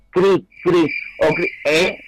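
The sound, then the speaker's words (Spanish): A voice imitates a cricket's chirp with four harsh, trilled syllables in a steady rhythm, while a thin, steady high tone runs underneath. “eso es un grillo. Esto es un grillo.”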